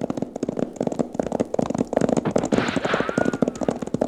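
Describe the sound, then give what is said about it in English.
Gunshots in a gun battle: many sharp, cracking shots fire in quick, irregular bursts at moderate loudness with no talk. “There are some shots, the kind I was talking about.”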